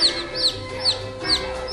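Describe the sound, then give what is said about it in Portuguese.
Baby chicks peep from deep inside a haystack: short, high, downward-sliding cheeps repeat about every half second over a faint, steady low hum. “10 pintinhos estavam todos lá no fundo do palheiro escondidinhos.”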